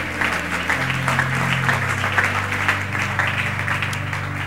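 A church audience applauds in praise during a service, steady dense clapping over sustained low musical tones.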